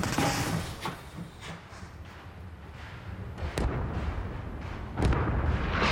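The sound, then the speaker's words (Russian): Artillery shells explode on both sides of a moving train carrying a machine gun on its platform. Deep booms and sharp cracks rise out of a continuous heavy rumble, with a few stronger blasts standing out. “По бокам разрываются снаряды.”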